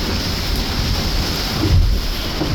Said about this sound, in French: Et en même temps, quand on a une mer démontée comme ça